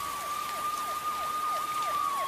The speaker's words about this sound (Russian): Послышался вой сирены. К ним приближались милицейские машины.